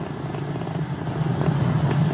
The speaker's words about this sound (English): 35 seconds into the Polaris Dawn mission, flying crew on board Dragon and Falcon 9 to new heights.